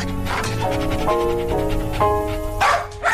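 A mixed-breed dog barks on a city street, giving several sharp barks at an uneven rhythm over a steady background of street noise.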